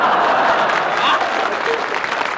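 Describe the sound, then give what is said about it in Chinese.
Audience applause at a stage comedy performance, loud, continuous clapping from a crowd that holds at an even level from start to end. “知道大家为什么鼓掌吗？”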